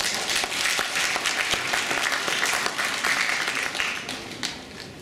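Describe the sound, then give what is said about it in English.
Audience applause welcoming a guest speaker at an event: many hands clapping in a steady, even patter that eases off slightly toward the end. “Let's give him a big hand.”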